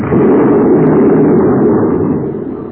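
A spaceship explodes after glowing red hot and melting, producing a loud, dense, rumbling roar that holds steady for most of its length before slowly fading toward the end.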